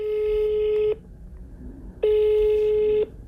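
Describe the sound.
Telephone ringing tone on an outgoing call while phoning around. Two steady electronic buzzing tones, each about a second long, are separated by a silent pause of about a second.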